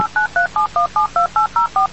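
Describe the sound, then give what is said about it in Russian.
Telephone number dialed during a radio phone-in game: a quick, evenly spaced run of many short dual-pitch DTMF beeps, each one distinct and loud, with no talk over them. “Набрал. В прямом эфире. Ждем соединения.”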